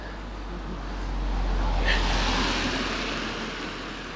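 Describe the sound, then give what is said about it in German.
An off-road vehicle drives past with a broad, rough engine rumble that swells to a peak near the middle and then slowly fades, with no talking. “Aber die fahren hier nur mit Geländewagen durch, wa? Jetzt kommt schon wieder der nächste.”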